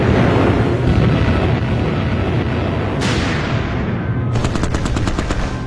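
Anti-aircraft gunfire aimed at low-flying aircraft, from 88s and small arms including .50-calibre and 37 mm guns: a loud, dense, unbroken roar of firing, ending in rapid, sharp bursts of shots.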